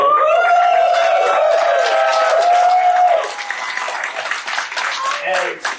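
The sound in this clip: Festival audience cheering, opening with a loud, sustained high 'woo' for about three seconds. It then breaks into rougher, uneven crowd shouting and noise.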